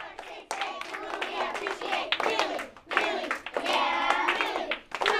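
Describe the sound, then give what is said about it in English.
Third graders clap and chant together to pump each other up at the start of a school day: lively, rhythmic hand claps mixed with excited children's voices, in energetic bursts with a couple of short pauses. “That's the sound of third graders pumping each other up to start the day.”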